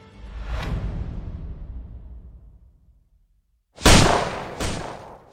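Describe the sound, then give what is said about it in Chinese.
Gunshots with a bullet striking a pillar: a long rumbling report fades out into silence, then two sharp, loud cracks follow in quick succession, each trailing off in an echoing decay. “又一颗子弹打在廊柱上，枪声四下回响，在周围绝不低调。”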